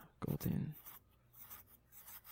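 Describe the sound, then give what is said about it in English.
Pen scratching across paper as a note is written down: a brief louder burst of strokes early on, then faint, irregular scribbling. “Let me write that down.”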